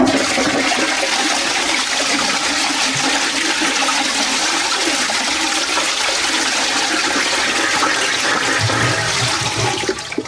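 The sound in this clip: A toilet flushing: a loud, continuous rush of swirling water that holds steady for about ten seconds and begins to fade only at the very end.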